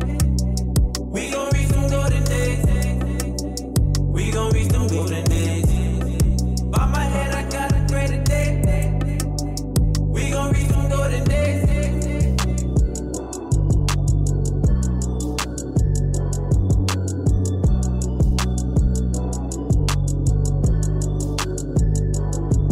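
A hip-hop track plays loud and unbroken, with a punchy, steady beat, deep booming bass and dense layered instrumentation that drops out briefly a couple of times before the groove returns.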